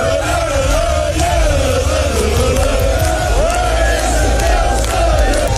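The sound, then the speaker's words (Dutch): Football fans cheer, shout and chant as their team bus arrives and is welcomed with flares, a loud, dense and unbroken crowd roar with rising yells running throughout. “De spelersbus van Telstar is met een boel gejuich en fakkels ontvangen.”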